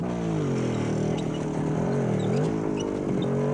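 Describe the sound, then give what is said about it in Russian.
Engine drone from four German motorcycles with sidecars driving past a tank. The low, buzzing hum holds steady with slight wavering in pitch, staying continuous and even throughout, and no voices are heard. “Мимо танка проезжает 4 немецких мотоцикла с коляской.”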